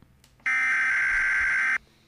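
An internet telephone tone sounds as a single steady electronic beep. It is loud and even, held for just over a second with nothing else around it.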